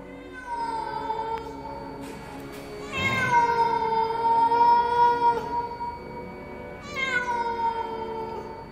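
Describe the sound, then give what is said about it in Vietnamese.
Eerie meowing from a limping black cat: three long, drawn-out wailing calls, the middle one loudest and longest, clear and alone with no talk. “Chợt có tiếng mèo kêu vang lên đến rợn cả gai ốc.”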